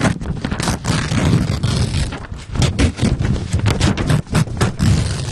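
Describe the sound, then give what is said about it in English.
Tearing paper as a tightly sealed, heavily licked envelope is pried open. The loud crackling scrape runs continuously with many sharp rustling bursts. “Give me the envelope. All right, let me open it up here.”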